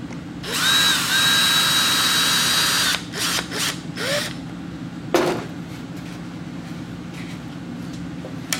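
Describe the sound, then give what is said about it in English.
A power drill drives screws in to secure a piece in place: one sustained whirring run with a high whine, followed by several shorter bursts and mechanical clicks. “I'm gonna put in a couple screws in there to hold it.”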